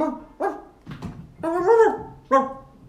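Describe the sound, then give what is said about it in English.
A dog barks a few times in short, sharp bursts with bright, harmonic yelps, separated by brief pauses, against a quiet background. “Oh, he's barking.”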